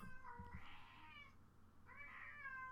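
A female cat gives two drawn-out meows, the first longer than the second, over a low steady background hum.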